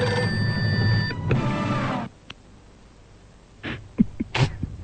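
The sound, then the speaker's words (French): A telephone rings for an incoming caller during a French call-in game show: a steady tonal ring over a busy backdrop lasts about two seconds, then a quiet gap and a few short, sharp bursts. “nous allons voir tout de suite si on reçoit un coup de... un coup de fil dans l'Isère.”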